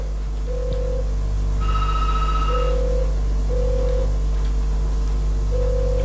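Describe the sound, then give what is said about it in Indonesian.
Telephone ringing with an incoming call: a few short electronic tone bursts repeat at a steady rhythm over a constant low hum, with no voices. “Sudah ada tampaknya nih di telepon ya.”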